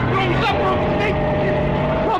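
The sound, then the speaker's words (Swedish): A car engine drones steadily and strongly as the car reverses and accelerates, with people talking over the continuous engine noise. “Lägg i backen och trampa på gasen innan det blir folksamling. Nå, trampa på gasen nu så vi kommer härifrån.”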